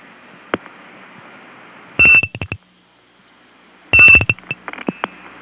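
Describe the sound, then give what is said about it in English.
Telephone-line signalling tones, with digits dialed and others rung in with a bell on a non-working number: a single click, then two clusters of rapid, high, pulsed tones separated by quiet line hiss. “I'm going to break into it by dialing 00 in front of the first two digits and then ringing the last two with my bell.”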